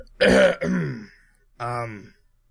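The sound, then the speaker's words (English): A man clears his throat awkwardly to break a silence, performed by voice as a few short, throaty, voiced bursts with a pause before the last, rougher one. Nothing else is heard around it. “kind of awkwardly clears his throat just to break the silence”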